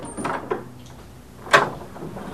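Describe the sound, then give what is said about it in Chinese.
A door being opened gives a few soft clunks, then a sharp bright click partway through, over a low steady background hum. “有人开门”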